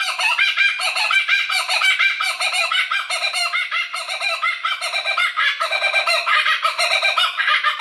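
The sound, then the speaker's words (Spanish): Laughing kookaburra (Dacelo novaeguineae) calls in a loud, continuous chorus of rapid, repeated cackling hoots that rise and fall in a steady pulsing rhythm throughout. “Pues se trata de la cucaburra común, cuyo nombre científico es Dacelo novaeguinae. En inglés se la conoce como cucaburra reidora.”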